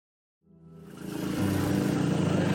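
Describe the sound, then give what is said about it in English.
Engine of a tuk-tuk carrying a rider through a red light district in Southeast Asia, starting from silence and building into a steady, loud, buzzing drone as it gets moving. “I'm riding in a tuk-tuk in the red light district here in Southeast Asia.”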